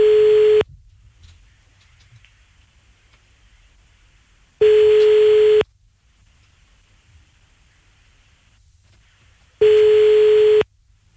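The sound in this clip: Telephone tones sound while a call is being placed: three steady single-pitch beeps, each about a second long, spaced by pauses of roughly four seconds of quiet line noise.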